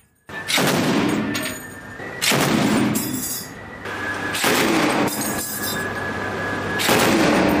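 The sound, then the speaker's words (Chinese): Heavy machine gun warning shots are fired from a warship at a suspicious small boat during an anti-piracy drill at sea. Several loud, rattling bursts are separated by brief lulls. “舱面火力组使用重机枪对可疑小艇进行警告射击。”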